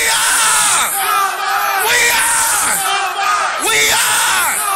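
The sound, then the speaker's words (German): A crowd at a memorial ceremony loudly shouts a school battle cry, many voices yelling together in a dense, sustained roar that surges in a few rhythmic waves. “Und bei der Gedenkfeier rufen viele den Schlachtruf ihrer Schule raus.”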